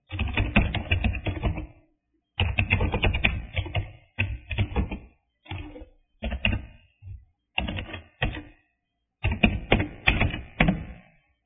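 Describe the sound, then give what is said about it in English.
A name being written by hand, heard as scratchy bursts of rapid tapping strokes. Several runs of varying length are broken by short pauses, with no talk. “I'll write his name.”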